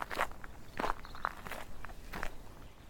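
Soft, faint footsteps as a person walks unsteadily down a slope, with several scuffing steps in an uneven, shuffling rhythm and no voices.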